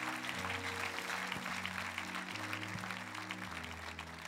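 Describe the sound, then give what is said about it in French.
A church audience applauds during a Sunday morning service, a steady wash of clapping, fairly quiet, running throughout over sustained instrumental chords that shift a few times. “Et il faut que vous acclamiez à l'avance ce que le Seigneur va faire.”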